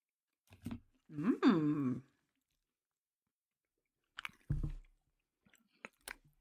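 Crunchy chewing of a Fruit Loops-flavored filled snack comes in a few separate bursts of bites and mastication with quiet gaps between. A short voiced hum is mixed in.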